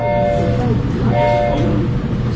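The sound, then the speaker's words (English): Loud, steady rumble of a steam locomotive hauling an excursion train at about 40 mph between Staunton and Afton via the Blue Ridge Tunnel, with a thin tonal whine running above the continuous roar. “On this trip, from Stanton through the Blue Ridge Tunnel to Afton and back again, the 611 tops out at about 40 miles per hour.”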